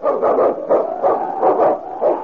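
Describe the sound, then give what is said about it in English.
Barking of a husky, a sled team's lead dog in the northern wilderness: a steady series of short, mid-pitched barks and yelps that repeat about every third of a second. “Its king, swiftest and strongest lead dog of the North Country, blazing the trail for Sergeant Preston of the Northwest Mounted Police”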